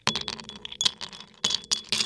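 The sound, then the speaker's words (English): Ice cubes clink into a glass as a vodka cocktail is prepared: a few sharp, quiet rattles and clicks come in separate bursts. “Start with the always important glass and ice cubes.”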